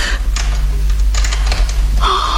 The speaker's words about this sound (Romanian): a intrat o cheie în broască.